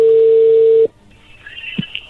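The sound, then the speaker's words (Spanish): A telephone call connects: a steady ringback tone sounds, then cuts off abruptly, leaving faint line noise and a soft click. “ya entró la llamada”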